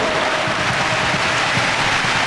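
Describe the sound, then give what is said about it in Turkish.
Football fans applauding Norway's attacking pressure in a stadium, a dense, even wash of clapping and crowd noise that holds steady without breaks and without clear speech. “Norveç'in baskısı alkış aldı taraftarından.”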